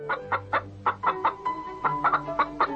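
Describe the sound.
A hen clucks in a series of many short, sharp bursts, loud and uneven in rhythm, with a brief pause midway.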